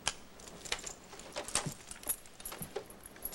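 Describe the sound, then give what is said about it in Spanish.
Handcuff keys jangle faintly, giving a quiet, steady patter of small metallic clinks and taps with no clear beat. “Las llaves.”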